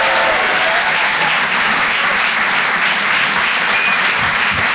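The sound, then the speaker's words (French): A comedy club audience applauds in a dense, steady wash of clapping that stays loud and even from start to finish. “Faites du bruit, s'il vous plaît, pour Nikos sur les chansons.”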